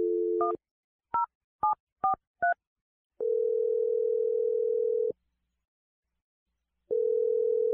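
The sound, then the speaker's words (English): A telephone dial tone gives way to five short keypad tones as a number is dialed, followed by two long, steady ringback tones separated by silence. “Okay, here we go. I'm going to dial her number right now.”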